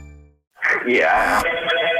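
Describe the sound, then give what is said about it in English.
A telephone rings at a workplace, a continuous bright trilling ring that starts abruptly after a brief gap and runs to the end, with a voice speaking over it. “Your phone off the hook over there.”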